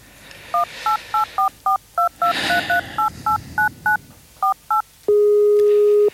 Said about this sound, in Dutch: Even bellen.